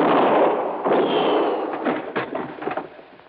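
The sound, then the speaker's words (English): Gunfire from a handgun, heard as several loud, harsh bursts with a quick run of sharper cracks near the end. “I can see in here, but you can't. Now, well, I can see the flash of your gun.”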